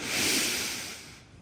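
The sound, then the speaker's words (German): A deep breath drawn in, heard as a loud, airy rush that peaks early and tapers off over about a second. “Tief einatmen.”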